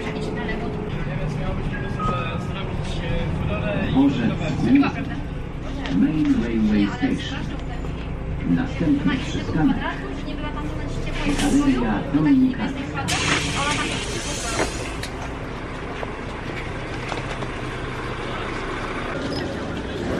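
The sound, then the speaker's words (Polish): A bus waiting at a stop before pulling away: a steady low engine rumble with intermittent voices or announcements, then a sudden loud hiss of air that carries on to the end. “I wsiadamy do autobusu. Jeszcze chwilę na przystanku i odjeżdżamy.”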